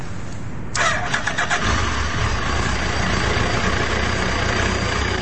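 A motorbike engine catches after a brief burst of cranking, then settles into a steady, loud idle that runs on evenly to the end.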